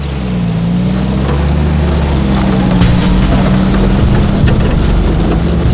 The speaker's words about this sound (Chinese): 这是小鬼的什么车呀？开得这么快？ 这是重型运输车，八缸的马力。